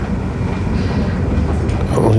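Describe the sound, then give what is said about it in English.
A train resumes running, giving a loud, steady low rumble with a dense rattling texture that swells slightly toward the end. “Oh, the train's running again now.”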